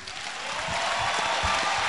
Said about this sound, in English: Come on, clap for the young man.